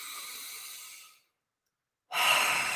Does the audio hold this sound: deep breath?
yes

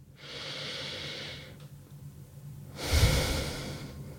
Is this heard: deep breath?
yes

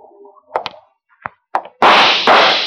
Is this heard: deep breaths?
no

